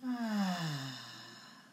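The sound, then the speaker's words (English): A slow, deep breath out during a guided breathing exercise, voiced as a soft sigh whose pitch falls gently. It fades away over under two seconds. “One more breath in. Breathe in. And out.”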